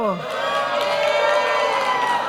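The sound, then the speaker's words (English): Parents cheer at an outdoor summer water-activity event, a loud crowd of shouts and rising whoops, with children's voices mixed in, held as a continuous excited roar. “All the parents are cheering, and all the young people are like, really?”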